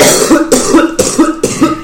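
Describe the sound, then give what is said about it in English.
A person coughs four times in quick, evenly spaced bursts, each loud and harsh with a short voiced, throaty edge, with no talk around them. “cough, cough, cough, cough, cough.”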